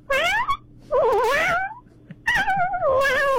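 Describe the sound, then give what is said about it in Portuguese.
A person's voice imitates a cat meowing, with several drawn-out, wavering, nasal meows that rise and fall in pitch, loud and separated by short pauses. “Faz mais um miado do gato aí pra gente dar tchau.”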